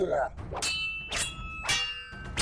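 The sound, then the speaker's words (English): Blades hack at the base of a mass of iron wood, giving three sharp, ringing metallic clangs spaced about half a second apart, each leaving a bright lingering tone. “And they pull out their blades and they start hacking at the base of the mass.”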